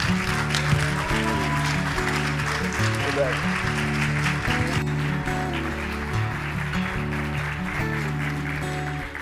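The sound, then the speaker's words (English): Audience applause swells into a standing ovation as a performer is welcomed on stage in Mobile. The dense clapping stays steady throughout, with music playing beneath it. “I've never gotten a standing ovation at my church.”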